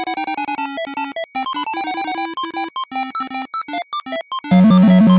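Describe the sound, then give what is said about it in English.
Burger Time arcade video game sound: a bright electronic melody of many short, staccato beeping notes that gives way near the end to a louder, denser buzzing passage. “Yep, that's Burger Time.”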